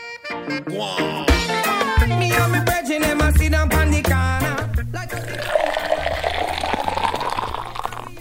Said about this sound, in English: That's the sound of some rich Jamaican Blue Mountain coffee, considered by many the best in the world.